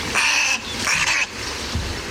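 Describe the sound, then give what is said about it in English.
Harsh, raspy squawks of snowy egrets chasing each other through nesting trees in a wading-bird colony on a ranch in Marin County, California: two loud grating calls close together, then a quieter stretch. “These snowy egrets are chasing each other through the trees, creating quite a stir.”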